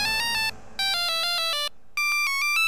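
A phone rings with an electronic ringtone: three bursts of quick, bright, melodic beeping tones separated by short gaps, each burst stepping through a few pitches, clear and with no voices.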